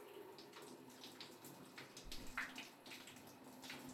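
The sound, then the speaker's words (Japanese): Warm water runs and splashes softly as someone is rinsed off during a massage, a faint, steady, continuous wash of water with no clear breaks. “じゃあ、そろそろ洗い流しちゃいますね。お湯の温度はちょうどいいですね。”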